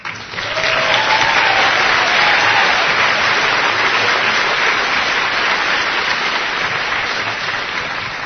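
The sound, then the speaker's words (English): Sustained audience applause from a crowd, dense steady clapping that rises quickly and stays loud throughout, easing only slightly near the end. “let's also give a big round of applause for our great staff in the National Office in Washington, D.C.”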